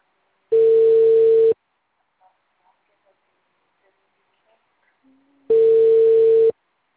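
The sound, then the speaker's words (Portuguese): Ringback tone of a telephone call being placed: two steady, single-pitched beeps of about one second each, separated by a long quiet gap, loud against near-silence between them. “Chamando, chamando, chamando.”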